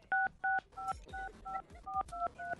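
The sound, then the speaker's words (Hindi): Mobile phone keypad tones beep as a debit card number is entered, a quick run of about nine short, crisp two-tone beeps in an even rhythm, fairly loud and alone, with no talk. “अपने mobile से अपना debit card number डाल दो मैं यहाँ से पैसा खींच लूँगा.”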